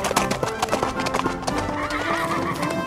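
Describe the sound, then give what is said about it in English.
A horse's hooves clip-clop rapidly and steadily at a light gallop, with a whinny near the end. “Okay, let's try a trot. That was great. Now let's do a light gallop.”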